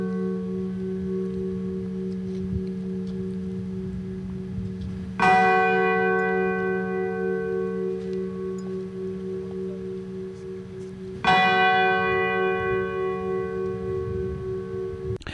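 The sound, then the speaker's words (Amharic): A memorial church bell rings in Warsaw, Poland: two heavy, evenly spaced strikes, each leaving a long, deep, humming decay that lingers until the next stroke. “ኣብ ዋና ከተማ ፖላንድ ኣብ ዋርሶ ናይ መዘክርታ ደወል ብስምዒታዊ ዝኽሪ ሰሚዖም”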